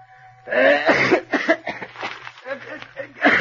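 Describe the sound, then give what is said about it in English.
Someone coughs and clears their throat in a run of rough, hacking bursts with short pauses between them, ending with another forceful cough. “If you've got bronchitis, why don't you go to a doctor? Oh, I'm sorry, Colonel. There's something in my throat. How can anybody read with that racket?”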